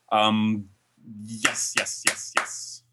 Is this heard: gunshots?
no